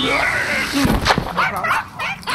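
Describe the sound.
A dog gives a few short yips and a whimper, fairly loud, mixed with people talking.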